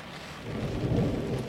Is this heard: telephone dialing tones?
no